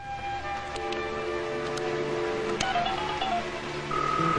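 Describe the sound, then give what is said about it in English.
Keypad tones from buttons pressed on an office desk phone: a few short beeps over a steady electronic hum, ending in a sustained tone. “Tom presses buttons on the phone at his desk”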